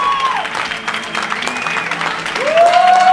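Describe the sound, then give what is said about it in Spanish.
Loud, continuous applause and cheering come from a crowd greeting a customer entering an Apple Store in Barcelona for a new iPad launch. Whistles slide through the clapping, which swells toward the end. “Y ahora Albert está entrando en la tienda con la gran ovación de todos los asistentes”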